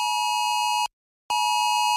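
National emergency alert test tone on a mobile phone: a loud, piercing electronic tone rich in harsh harmonics, broken by one short silent gap into two bursts.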